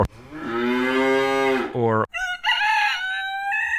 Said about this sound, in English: So there's no one even knew what I just said right now because I just put a whole bunch of barnyard animal noises in.